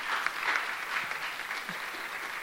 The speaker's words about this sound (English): Let's get a round of applause for that.